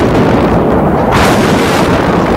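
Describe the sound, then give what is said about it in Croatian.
Artillery shell exploding about 30 metres away on a city street during the wartime siege of Sarajevo. A loud, dense roar fills the whole clip without a break and brightens partway through. “evo, sada je pala na granata, na možda 30 metara od nas”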